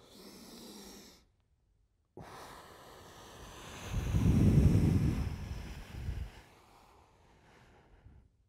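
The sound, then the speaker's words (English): Deep inhalation and forceful exhalation during a breathing exercise done before a pull-up: broad, rushing airflow noise that swells to a loud peak midway, then a shorter gust of breath. No talking is heard. “I'm gonna take a big, deep breath in, expel it all out, and then pull up.”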